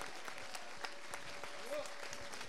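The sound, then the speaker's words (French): Audience applause at a live tribute concert evening, with dense, steady clapping throughout at a fairly low level and a voice briefly rising above it near the end. “Je voulais juste également qu'on fasse un tonnerre d'applaudissements pour l'organisation de Seb et toute son équipe, toutes les personnes qui étaient avec lui, s'il vous plaît!”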